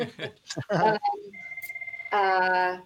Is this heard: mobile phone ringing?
yes

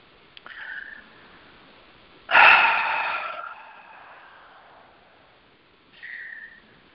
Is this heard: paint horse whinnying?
no

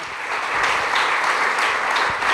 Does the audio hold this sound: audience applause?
yes

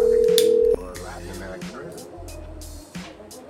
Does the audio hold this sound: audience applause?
no

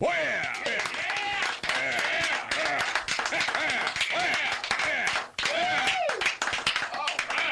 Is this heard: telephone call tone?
no

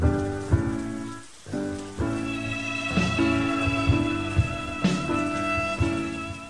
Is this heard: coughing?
no

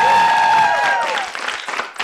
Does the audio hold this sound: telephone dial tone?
no

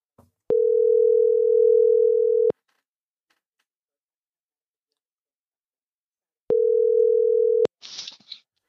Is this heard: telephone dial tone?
yes

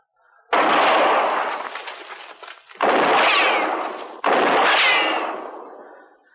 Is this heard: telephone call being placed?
no

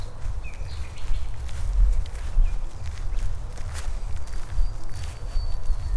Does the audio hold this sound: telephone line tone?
no

